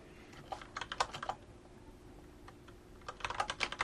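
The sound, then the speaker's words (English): Typing on a computer keyboard: quick, light clicks in two bursts, separated by a short lull. The keystrokes are fairly faint and come alone, with no talking. “I'm just going to type in another one.”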